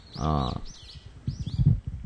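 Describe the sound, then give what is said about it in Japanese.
Short, high bird chirps that repeat a few times over people talking in low voices. “なんかもう鳥もなんかさえずり始めてますもんね。”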